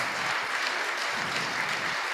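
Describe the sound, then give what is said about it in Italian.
Audience applause during a discussion about regulating e-scooters: dense, steady clapping that holds at an even level throughout, with no voices over it. “Bene, e su questo facciamo un applauso.”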